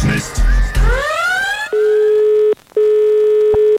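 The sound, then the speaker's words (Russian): Telephone tones while dialing a call to St Petersburg: a brief burst of rising electronic tones, then a steady, loud, even ringing tone that breaks off once for a short gap and resumes. “Мы начинаем звонить в Питер.”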